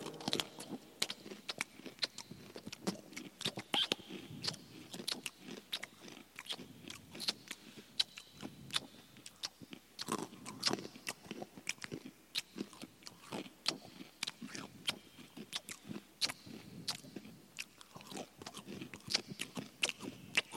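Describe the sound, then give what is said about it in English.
Wet lip-slapping and crunchy chewing, with many quick, irregular smacks and crunches packed closely together and continuing the whole time at a soft level, with no talking. “Turn up the slapping of the lips. We need to do a test on that.”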